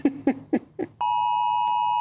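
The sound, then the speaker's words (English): A government wildfire emergency alert tone sounds on mobile phones: four short, pulsed bursts, then a loud, piercing, steady high beep that holds to the end. “the government sent out an alert warning about wildfires that landed in most of our mobile phones, unless you're Dr. Renee”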